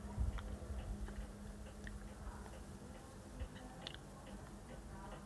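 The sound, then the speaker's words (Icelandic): A clock ticks with faint, regular clicks over a low, muffled background rumble. “Já, það er klukkan.”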